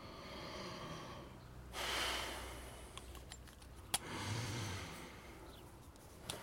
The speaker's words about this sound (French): Respirez profondément.